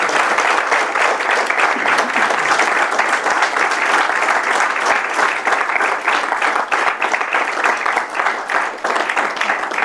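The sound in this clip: Sustained audience applause at the close of a talk: dense, steady clapping that stays loud and continuous from start to finish.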